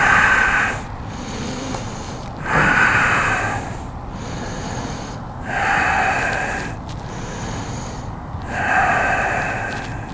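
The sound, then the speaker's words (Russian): Ujjayi yoga breathing during a warm-up: long, slow, throaty breaths that rasp audibly, with louder and softer passes alternating in a steady rhythm. “дышим уджайи.”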